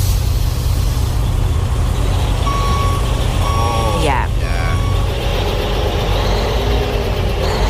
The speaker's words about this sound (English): Just the general hubbub, if you will, of heavy machinery doing their thing.